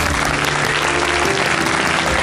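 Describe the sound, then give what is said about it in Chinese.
A studio audience applauds to welcome a guest on a health talk show, with dense, steady clapping at an even, loud level throughout. “咱们节目的老朋友啊，掌声欢迎”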